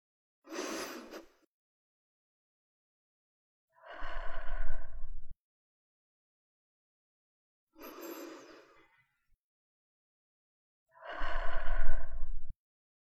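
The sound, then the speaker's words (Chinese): Calm breathing during a meditation: four separate breath sounds with quiet gaps between, alternating shorter soft breaths and longer, fuller airy ones, no voice. “现在，我们把感受聚焦在我们的呼吸上。我们用十秒钟，安静的，这是呼吸。”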